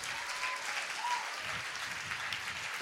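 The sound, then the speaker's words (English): Audience applause: steady, even clapping from a crowd, fairly faint and continuous throughout, with no voices over it. “So everybody, applause for Josef, who's in on this.”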